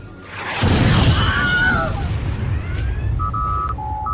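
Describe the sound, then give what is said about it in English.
Science-fiction weapons fire from an alien spaceship, with explosions striking shields: a heavy, rumbling boom, then whistling, falling zaps and sharp bursts, ending in steady electronic beeping tones. “It's powering up its weapon systems. Red alert. They're firing. Shields up.”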